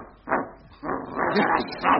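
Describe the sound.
A dog barks loudly at a dog-license renewal counter, giving a few sharp bursts: one short bark, then a longer run of barking, then another bark near the end.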